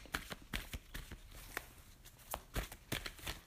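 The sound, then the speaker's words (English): Wisdom cards being shuffled and drawn: faint, soft riffling and papery taps arrive in irregular bursts, many small clicks spread across the few seconds. “Let me pull out two wisdom cards for you.”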